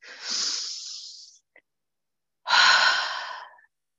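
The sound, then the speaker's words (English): A deep breath drawn by a person, heard as two long, breathy rushes of air separated by a quiet pause with a tiny click. Both are fairly loud and stand alone, without talk. “You took a deep breath. That's good.”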